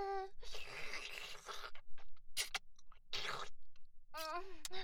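Moist chewing of beef tongue meat comes in short, noisy bursts separated by pauses, with brief voiced grunts at the start and end.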